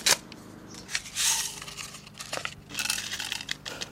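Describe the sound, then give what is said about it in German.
Dry rattling and rustling of seeds from many different seed packets being mixed together in a bowl, coming in irregular bursts of crisp, granular scraping at a moderate level. “Und dann habe ich hier noch eine Schüssel und eben die vielen verschiedenen Samenpackungen. Und jetzt mische ich sie gerade mal zuerst. Mischen.”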